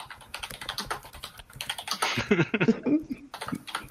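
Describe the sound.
Rapid, irregular clicking of keys as a message is typed on a computer keyboard, with bursts of quick keystrokes and short pauses between them.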